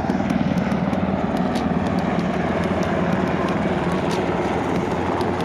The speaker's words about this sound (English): That's the sound of a FEMA helicopter in San Juan, Puerto Rico, taking off with our producer Andres on board.